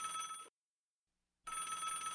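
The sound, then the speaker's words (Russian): A telephone bell rings in two long, loud, steady bursts, split by about a second of silence. The second ring runs to the end. “И в этот миг зазвонил телефон.”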